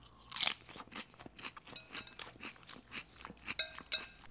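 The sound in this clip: Crunching on a crisp romaine lettuce salad with corn and black beans: many quiet, irregular crisp bites and chews, with a few sharper crunches.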